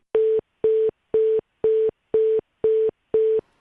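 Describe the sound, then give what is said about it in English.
Telephone signal tone on a hotel room phone: seven identical beeps of one steady mid-pitched tone, evenly spaced in a regular on-off rhythm, with no voices. “I don't know what this phone signal means. Yeah, that's very strange.”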